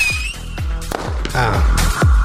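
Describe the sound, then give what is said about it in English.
A fireworks sound effect: a rapid, dense string of loud bangs and crackling bursts with deep booming thuds, packed closely together over a couple of seconds. “Yay, I'm back. Release the fireworks.”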